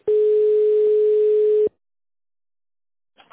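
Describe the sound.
A telephone ringing tone as a call to a company's internal extension connects: one steady mid-pitched beep lasting over a second, then silence, with a brief faint noise at the very end.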